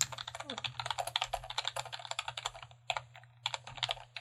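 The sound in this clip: Rapid typing on a computer keyboard to write down a note: many quick, irregular clacking keystrokes run almost nonstop, with a short pause near the end before a few more bursts of keys.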